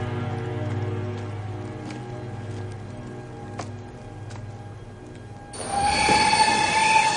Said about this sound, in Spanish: En una estación de tren, la señorita Adler camina junto a un revisor. ¿Saldrá el tren a su hora? El tren lleva retraso, señora.